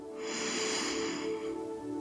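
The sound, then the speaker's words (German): A deep inhaled breath, a soft airy rush that builds and then eases over about two seconds, heard over a faint steady tonal drone. “Noch einmal, atme tief ein”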